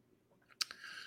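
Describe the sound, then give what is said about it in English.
A single sharp click of a computer mouse on an online restaurant menu, faint and alone against near silence. “Now I'm clicking on the menu because now I'm curious.”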